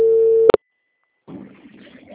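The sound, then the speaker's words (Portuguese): A steady telephone line tone sounds while a phone call is being placed, then cuts off with a click. A short silence follows before faint, rough line noise comes in. “Espera, rapidinho, deixa eu fazer uma ligação aqui.”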